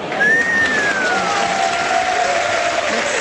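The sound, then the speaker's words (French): An audience applauds after a comedy routine with steady, dense clapping at an even loudness through the whole clip. A thin, faint tone slides downward over the clapping. “Vous pouvez applaudir Florence Foresti.”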